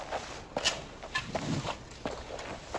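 Footsteps of someone walking away, soft and faint, a handful of light, slightly uneven steps with no talking.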